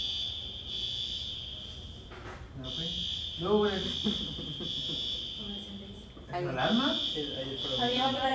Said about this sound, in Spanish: ¿Es ahí. La alarma?